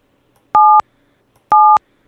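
Two short, identical telephone keypad DTMF tones dialing an extension on a phone call: clean, steady beeps at a loud level, evenly spaced, alone with no voices.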